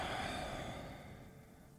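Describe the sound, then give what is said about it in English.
A single deep, breathy exhale through the mouth during a guided meditation, a long airy sigh that slowly fades and softens, with no talking. “And when you're ready, we'll take a deep inhale through the nose. Exhale through the mouth.”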